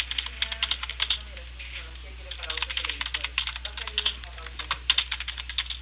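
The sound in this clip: Typing on a computer keyboard during a phone call about a contract payment: quick bursts of light key clicks in irregular runs, separated by short pauses, with a faint voice speaking underneath.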